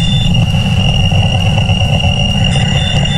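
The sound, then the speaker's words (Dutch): A real recorded radio signal known as the Wow Signal: steady, loud, static-like noise with a sustained high whine running through it and a low rumbling undertone, unchanging throughout. “zomaar even als je de Wow Signal hoort. Dat is een echt geluidsfragment en dat klinkt zo.”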